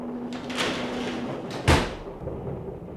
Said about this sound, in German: Machen Sie die Tür zu.